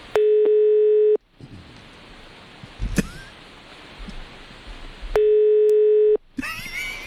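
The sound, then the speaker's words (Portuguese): Telephone ringback tone heard while placing a call: two long, steady, low-pitched tones about a second each, separated by a pause of several seconds filled with faint line hiss and a brief click. “Tá chamando? Tá chamando, tá chamando.”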